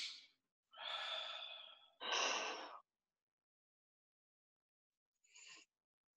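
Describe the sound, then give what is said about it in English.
Slow, airy breathing in through the nose and out through the mouth: two long breaths in a row, then a pause and one short, faint breath. No voices. “In through your nose, out through your mouth.”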